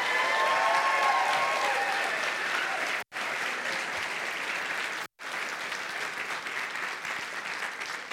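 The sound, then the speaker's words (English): Sustained, dense applause from an audience cheering a group of students, loud and steady throughout, broken by two brief dropouts. “Y'all make some noise for them. Come on.”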